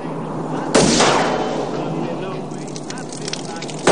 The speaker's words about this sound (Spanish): Desde el vehículo disparan a un depósito de agua.